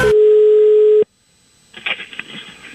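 Telephone dial tone while placing a call: a loud, steady single-pitch hum lasting about a second, then cutting off abruptly into near silence.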